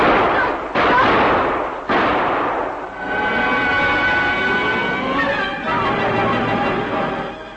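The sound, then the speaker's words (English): Pistol gunshots in an audio drama set in a crumbling warehouse: a few loud, sharp blasts with long rumbling tails, followed by sustained, dense sound. “As the pistol came up and his finger tightened to fire the first bullet through me”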